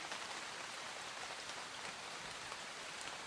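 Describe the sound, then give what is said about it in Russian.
Steady rain pours from a cloud-covered night sky over a port, making a faint, even hiss of countless drops that runs on without a break. “С неба, затянутого тучами, лил дождь.”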